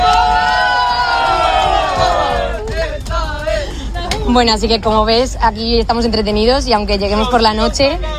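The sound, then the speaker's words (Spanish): A crowd of excited young pilgrims travelling to Madrid for a meeting with the Pope shouts and cheers loudly at first. A person then talks over the continuing crowd noise. “Este es el sonido de algunos de los miles de jóvenes que están deseando llegar a Madrid para este encuentro con el Santo Padre.”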